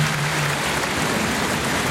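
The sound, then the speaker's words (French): Crowd applause in a bullring, greeting a mounted bullfighter and his horse during a corrida with Pedraza de Yeltes bulls. A short, dense and even patter of clapping runs throughout. “Voilà, bien sûr applaudi le cavalier et le cheval Ulysse aussi.”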